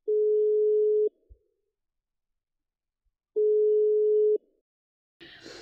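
A telephone ringback tone sounds while someone calls a friend: two steady, mid-pitched beeps, each about a second long, separated by a pause of about two seconds, with a brief rustling noise at the very end.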